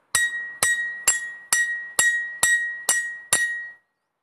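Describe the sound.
Metallic clinks of a shovel striking a chisel: eight evenly spaced sharp hits, each leaving a bright, high ring that fades before the next blow, heard alone without talk.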